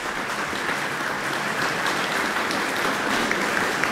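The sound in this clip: Warm audience applause in Jubilee Hall for composer Louise Webster after the New Zealand String Quartet performs her work. Dense, steady clapping holds at an even level throughout.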